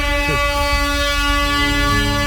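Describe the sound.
Air horn jingle blares as a steady, brassy, multi-toned drone with a brief warbling flourish near the start, holding loud and unbroken for the full couple of seconds.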